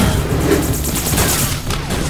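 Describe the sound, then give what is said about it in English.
Heavy gunfire in a firefight, heard as a dense, loud volley of overlapping shots that merge into one continuous roar for about two seconds, with no distinct single shots and no voices. “we're under heavy fire”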